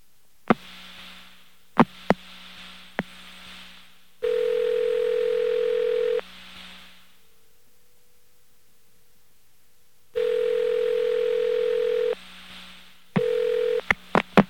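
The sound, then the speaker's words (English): Telephone line clicks while a call is transferred on a New York phone company line: sharp isolated clicks over a faint hum, broken by two long steady tones and a shorter one, then a burst of quick clicks. “Please hold while your call is being transferred. Isn't this convenient? Why, listen to all those clicks.”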